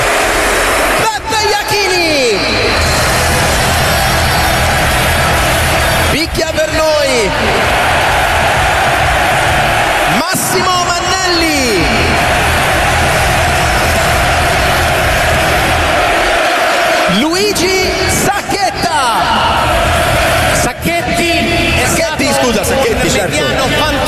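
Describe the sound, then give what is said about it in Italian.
Fiorentina fans celebrate at the Franchi stadium with a loud, continuous crowd roar and chatter. Surges of massed chanting voices recur across the whole span. “Allora, dai, proponiamo la festa della Fiorentina, che mi sembra meglio delle nostre voci.”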